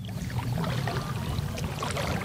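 A paddle dips into smooth, still water as a boat is rowed in Mexico City, giving soft watery swishes and trickles over a steady low rumble, with no voices.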